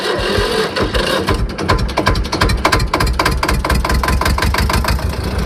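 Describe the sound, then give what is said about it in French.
An old farm tractor engine runs loudly with a rapid, steady mechanical knock of regular pulses, rough and rattling throughout, with no voices. “On a toutes les marques un peu, des tracteurs qui fonctionnent, d'autres qui fonctionnent moins bien. La plupart démarrent quand même au quart de tour, la preuve.”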